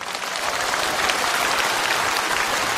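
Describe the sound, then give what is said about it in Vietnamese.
An audience at a Buddhist monk's dharma talk applauds in a dense, steady burst of clapping that holds at an even, fairly loud level for about three seconds. “Các vị vỗ tay làm cho sư mãn nguyện quá.”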